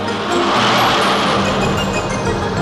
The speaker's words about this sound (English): It's another lovely shot of the two models trying to overtake each other. There's a long bend just ahead. I'm going to try and take them there.